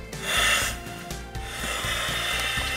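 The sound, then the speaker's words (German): Parts being screwed back together after a seal was replaced during a chemical protection suit drill make rough rubbing and scraping sounds, a louder grinding swell early on followed by steady scratchy friction. “Wir hatten die Dichtung gerade rausgenommen. Ja, ja, aber ist der neue schon drin. Wir schrauben jetzt wieder zusammen.”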